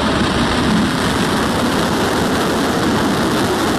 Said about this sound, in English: Lift off of Falcon 9, goes SpaceX, goes Transporter 18. Vehicle is pitching downrange.